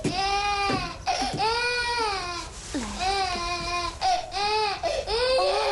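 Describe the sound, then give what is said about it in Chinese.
A baby girl cries in a family home's main hall, letting out several long, high, wailing bursts with brief catches of breath between them, loud and continuous throughout. “来，不哭啊！”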